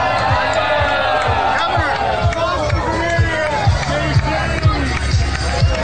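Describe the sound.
A hostile crowd at the border jeers the reporter Jim Acosta, a loud and continuous wall of shouting, whoops and overlapping babble with bursts of louder yells throughout.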